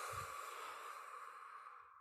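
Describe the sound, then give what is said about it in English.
A breathing exercise with a double inhale through the nose and a long exhale: a soft, airy breath that fades gradually over about two seconds, faint and with no talk. “So you can mimic this by doing a one inhale through your nose and then one inhale again and then a long exhale.”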